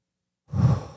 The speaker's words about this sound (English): let's just take a breath in, and then you can hold it for a second and release.